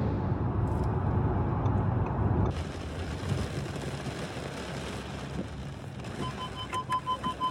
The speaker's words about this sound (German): Wir fahren die ganze Zeit jetzt so zwischen 180 und 200. Hochkonzentriert. Die Autobahn lässt es so.